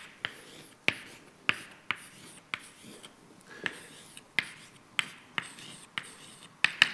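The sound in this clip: Writing on a board during a maths lecture: many short, sharp taps and scratchy strokes at a fairly regular pace, moderately loud, with no talking.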